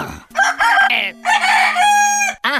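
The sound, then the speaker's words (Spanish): A rooster crow rings out loud and strident, one drawn-out call of about two seconds with a brief extra burst right after. “El gallo. No un gallo cualquiera. El gallo.”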